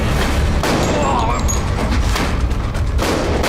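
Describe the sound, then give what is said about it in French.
Gunfire from a film scene, a man entering a room and firing a handgun at several men, heard as loud, dense bursts of shots and booms within a continuous, crowded mix of sound. “va bien sûr rentrer dans la pièce, sortir son flingue et commencer à tirer sur des mecs.”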